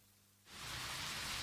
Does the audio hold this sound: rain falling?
yes